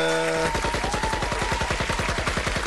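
Gunfire sound effect: a rapid, evenly spaced burst of many sharp shots in an automatic rhythm, loud and sustained to the end after a brief tonal lead-in.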